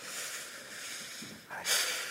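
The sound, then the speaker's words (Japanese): A deep breath taken during a guided relaxation exercise: a soft, breathy rush of air swells briefly near the end, faint and alone with no talk. “もう一度深呼吸をして”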